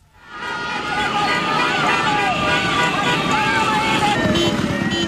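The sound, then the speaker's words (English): Dozens of motorbikes and cars carrying flag-waving demonstrators at a protest in Caracas, Venezuela, make a dense, loud, continuous roar of engine tones and crowd babble. A voice speaks briefly. “that's the sound of dozens of motorbikes and cars full of demonstrators waving giant flags and banners in support of Ms. Machado.”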